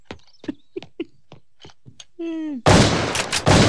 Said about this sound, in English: He's shooting a tree down for his Christmas tree.